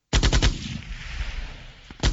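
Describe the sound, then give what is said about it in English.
Machine gun fire at a machine gun shoot: a loud burst of rapid shots opens, followed by a long rumbling, noisy tail, and another hard burst of fire starts right at the end. “We had this past weekend the machine gun shoot.”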